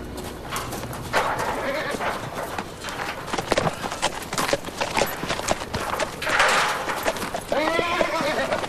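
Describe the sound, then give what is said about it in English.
A pack of horses gallops into a temporary enclosure. Dense, rapid hoofbeats rumble on throughout, broken by a few whinnies. “Back on her horse again, Jordan snaps away as the pack gallop into the temporary enclosure.”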